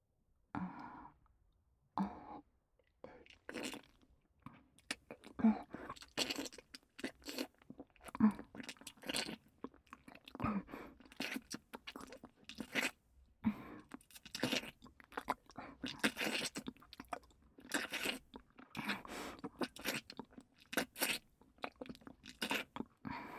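Crunching and chewing of vinegar-flavoured food, with many crisp bites and small clicks in an irregular rhythm, fairly faint and with no talk.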